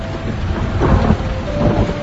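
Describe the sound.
Heavy rain falling steadily with thunder at night, a dense hiss over a low, continuous rumble that swells slightly midway.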